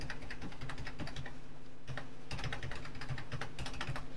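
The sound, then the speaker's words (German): Rapid typing on a computer keyboard produces many quick, crisp key clicks in a fast, uneven rhythm, broken by a short pause partway through and then resuming at the same brisk pace. “Wenn ich noch schneller tippe, habe ich noch mehr Fehler drin und brauche noch länger.”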